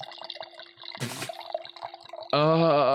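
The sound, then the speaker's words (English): Wine pours into a glass as trickling, dripping liquid. A brief louder splash comes partway through, and a steadier, fuller pouring tone follows near the end. “That's the sound of something coming. That's a wine, folks. I just poured my first glass”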